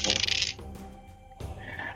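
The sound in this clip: Dice rolled for damage in a tabletop role-playing game clatter in a few bright, rattling bursts with short gaps between them, heard alone without talk.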